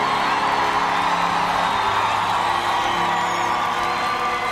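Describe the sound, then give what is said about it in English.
An audience at a Good Friday church service cheers and applauds to welcome a senior administrator, a dense and continuous wash of crowd noise and whoops that holds at a steady level throughout. “Give him a big hand, Bazalwana, and set your watches to 3 minutes. I mean, let's make the man feel welcome, Bazalwana. Give him a warm welcome.”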